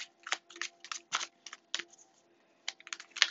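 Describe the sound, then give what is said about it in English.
A Star Spinner tarot deck is shuffled in quiet, crisp bursts of riffling and clicking card edges. The bursts come in quick clusters, with a short pause before the shuffling resumes. “I am shuffling the Star Spinner Tarot. Cannot guarantee you'll hear me shuffling the whole duration of this reading”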